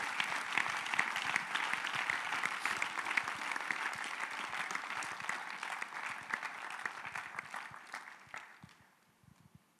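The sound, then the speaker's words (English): A church audience applauds for the Lord in dense, steady clapping that holds for about eight seconds, then thins out and fades near the end. “Give the Lord a wonderful clap.”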